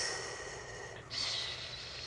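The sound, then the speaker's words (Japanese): A soft, gentle inhale through the nose during a vocal breathing exercise: a faint, airy breath swells about midway and holds quietly to the end, alone and without speech. “鼻から息を吸いまして、はい、まずもっと弱くね、 はい はい、柔らかく息を吸って”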